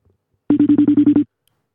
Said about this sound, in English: Hang on, we've got a caller on the line. we've got a caller on the line. Line one.